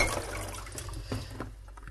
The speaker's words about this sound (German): Eben waschen die Zucchini auch.